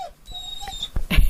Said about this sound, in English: our Shunka, our dog, protesting because he's hungry. We're sitting down here in the teepee. He's not getting fed yet